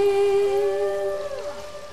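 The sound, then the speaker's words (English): Humpback whale song: a long, sustained moaning tone rich in harmonics that bends downward partway through while a fainter higher tone carries on beside it. “The record went gold, and it introduced millions to the songs of the humpback whales.”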